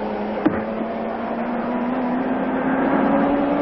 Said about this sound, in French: Ah, ça, c'est la moto. C'est l'hostie de moto.